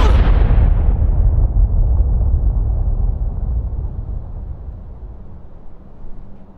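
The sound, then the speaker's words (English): Explosive charges detonate in a loud, deep blast whose heavy rumble slowly fades over several seconds, with a small swell near the end. “Detonate the charges!”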